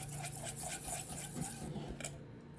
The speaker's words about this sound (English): And I'm just whisking the yogurt.